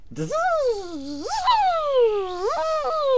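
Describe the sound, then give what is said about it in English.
A dentist's drill whines in a continuous buzzing tone that slides up and down in pitch, rising and falling several times, loud and alone. “That may sound like a 2,000-pound mosquito, but that is the sound of a dentist drill.”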